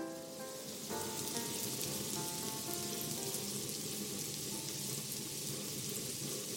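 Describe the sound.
Pears cooking in a pan, a soft, steady sizzle and hiss that runs without pause from start to finish, with a faint tonal hum beneath it.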